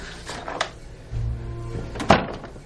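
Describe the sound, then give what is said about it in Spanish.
A room door being pushed shut: soft shuffling and rustle, then a single dull thud near the end. “Su hijo cierra la puerta.”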